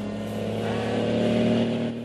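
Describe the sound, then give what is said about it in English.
A large semi-trailer truck drives down a two-way street in California. Its engine gives a steady, low, droning rumble with layered tones that swells slightly and eases near the end. “A large semi-trailer truck thunders down a two-way street in California.”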